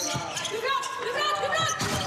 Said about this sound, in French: Alors Lilou Ratahiri, elle appuie au service.